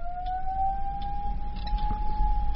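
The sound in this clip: A fire alarm siren gives a sustained, steady, piercing tone that drifts slightly upward, over a low background rumble.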